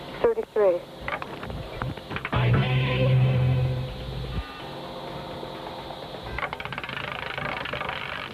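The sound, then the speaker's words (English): The KYA radio money wheel spins with rattling, rapid clicks. The clicks come in short bursts at the start and return as fast ticking later, mixed with other sounds in between. “What number between 1 and 50 will come up when we spin the KYA money wheel?”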